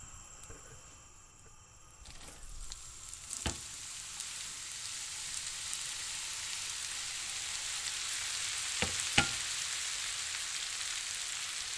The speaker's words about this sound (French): Dans une poêle, utilisez du beurre ou toute huile végétale. Le beurre, il a chanté.